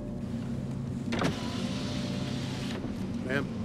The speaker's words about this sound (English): the car window closes